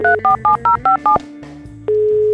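Touch-tone telephone number being dialed: six short, evenly spaced two-note beeps in a quick run, then a brief pause and a steady single call tone that holds to the end.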